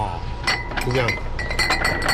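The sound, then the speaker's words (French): Glass bottles of Kaoliang, a local 58-degree liquor, clink together in a shop with crowded shelves. A few bright, ringing clinks ring out under ongoing talk. “nous montre ses bouteilles de Kaoliang, l'alcool local à 58 degrés”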